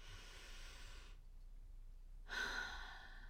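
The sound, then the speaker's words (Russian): A deep breath drawn in: a long, airy hiss of steady inhaling, then a short silence and another brief, louder breath. “Давайте сейчас сделаем глубокий вдох,”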